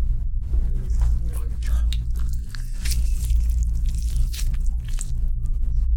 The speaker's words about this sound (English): We're currently opening an orange.